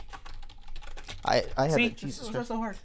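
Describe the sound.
Quick typing on a computer keyboard while writing down song titles: a brisk run of clicks at first, then a person talking over fainter keystrokes.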